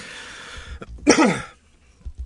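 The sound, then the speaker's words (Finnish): A single short cough or throat clearing, loud and rough, rising sharply out of a quiet background and ending abruptly, with no talk around it. “Suokaa, anteeksi, pieni köhäys.”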